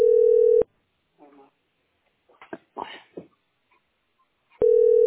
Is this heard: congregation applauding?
no

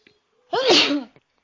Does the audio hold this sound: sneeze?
yes

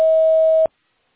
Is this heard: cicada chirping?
no

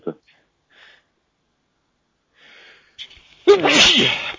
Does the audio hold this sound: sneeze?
yes

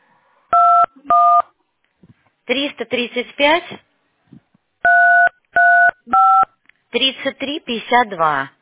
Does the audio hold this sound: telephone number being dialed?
yes

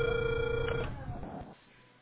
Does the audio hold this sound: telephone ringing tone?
yes

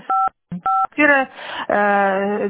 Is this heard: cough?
no

